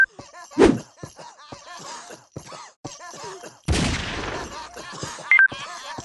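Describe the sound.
Gunshots from a mobile shooting video game: a sharp burst early on, then a longer, noisy volley later, with voices in between.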